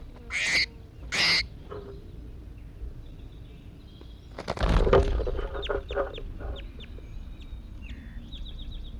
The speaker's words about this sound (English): I think this is bird 81 calling here. Just released him.